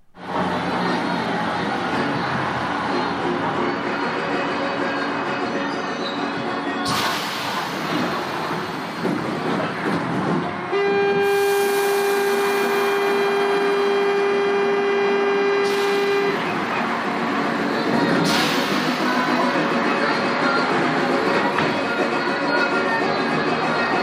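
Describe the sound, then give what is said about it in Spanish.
Metro train noise: a continuous heavy rumble of rail traffic, with a steady droning tone through the middle and several sharp hissing bursts. “A lo mejor la tenía guardada, una postal sonora del metro. Muchas gracias a Mario Mora por ella.”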